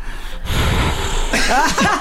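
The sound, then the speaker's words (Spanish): A person demonstrates breathing aloud: heavy, continuous breathy exhalations and gasps, growing partly voiced and more uneven toward the end. “¿Y la respiración cómo es”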